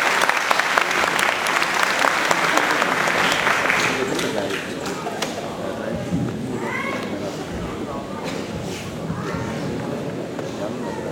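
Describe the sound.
Audience applause welcoming two hocas invited to recite the call to prayer in the Hicaz makam, a dense, sustained clapping that is strongest in the first few seconds and continues with voices mixed in.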